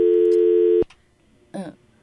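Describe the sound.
A telephone busy tone after a call is cut off: a steady, loud, mid-pitched tone that stops abruptly, followed after a short gap by a brief burst of speech.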